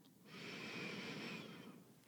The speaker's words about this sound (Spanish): vamos a tomar nuestras tres respiraciones largas y profundas. Vamos a inhalar.